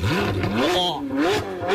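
A Ferrari sports car engine revs loudly throughout, its pitch climbing and dropping several times in quick succession.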